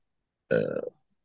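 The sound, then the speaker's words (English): A single burp, a loud voiced belch lasting under half a second with a low, rumbling, throaty tone, heard alone against silence. “Burping.”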